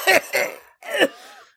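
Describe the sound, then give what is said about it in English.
A person who has just inhaled a worm coughs and clears their throat in three harsh, rasping bursts. The first two come close together, and a longer final one trails off hoarsely. “I think I inhaled a worm. Let the fauna be, Felix. You think I wanted to snort a worm?”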